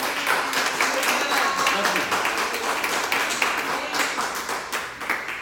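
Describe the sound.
A church audience in Houston, Texas, applauds to welcome a pastor, with dense, continuous clapping that stays fairly even for the whole clip.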